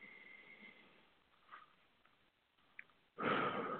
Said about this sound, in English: Exhale. Three cleansing breaths. To reset ourselves, recenter ourselves.